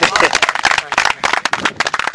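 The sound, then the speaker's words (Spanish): Applause from people gathered at a memorial meal: uneven bursts of hand clapping with voices talking over them. “Ese Chowi, arrancando aplausos ahí al personal.”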